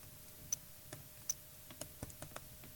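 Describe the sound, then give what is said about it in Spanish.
Faint, irregular keystrokes on a computer keyboard as an email address and password are typed slowly into a login form: a sparse series of light, sharp clicks over a quiet background, with no talking. “Entonces lo que hago es pulso dos veces tab, aquí escribo el mail, voy a escribir lento porque... Y aquí doy un tab más y pongo la contraseña.”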